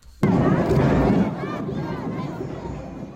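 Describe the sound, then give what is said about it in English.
Children shriek and cheer at a Santa Claus Parade in a loud burst of excited crowd noise that starts abruptly. High squeals ride over a busy babble throughout. “That's the sound of children having fun at this year's Santa Claus Parade.”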